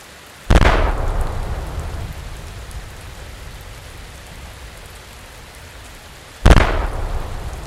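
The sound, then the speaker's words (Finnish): Two heavy booms from fortress cannons firing salute shots as an imperial ship arrives at a misty, rainy Helsinki harbour. Each blast is loud and sudden, then decays slowly, and steady rain hisses underneath. “Sumun keskeltä alkaa erottua laivan keula. Keisari tulee! Piaporin tykit ampuvat kunnialaukauksia.”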